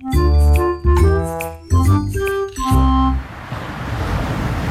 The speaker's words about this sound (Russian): Мы с мамой и папой сидели на берегу моря, дышали морским воздухом.